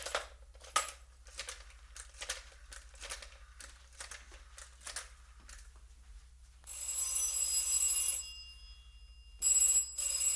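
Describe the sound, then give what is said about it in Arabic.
A telephone bell rings in two bursts, a longer one followed by a short one, after a run of quiet sharp clicks and taps. “احتمال يكون ده رستم يا فندم. طب رد عليه.”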